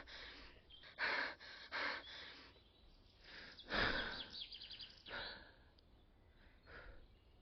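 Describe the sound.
Calm breathing, in through the nose and out through the mouth, comes as several faint, slow breaths with soft airy swells and pauses between them.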